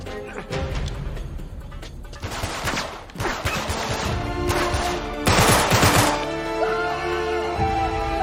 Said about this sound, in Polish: O, tam do mnie ktoś strzela.